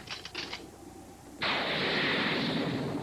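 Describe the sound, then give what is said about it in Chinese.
Cartoon gunfire at a firing-squad execution in a 1987 animated series. A few light clicks come first, then a sudden loud, dense blast of firing noise starts and roars steadily to the end. “将犯人行刑啊！准备开火！”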